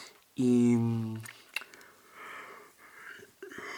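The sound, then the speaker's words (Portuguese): A person yawning: one long, loud, tonal voiced yawn lasting under a second, then quieter breathy sounds. “Vou bocejar tanto. Desculpem, espero que não ouçam isto de manhã e depois também fiquem com sono.”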